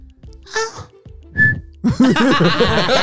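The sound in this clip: A brief, clear whistled note meant as a snatch of a pop song tune, sounding alone between short vocal bursts, then followed by a louder stretch of voiced sound.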